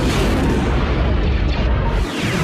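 Spaceship weapons open fire in a Star Wars space battle, a dense, loud roar of booming blasts and deep rumble that fills the whole stretch without pause.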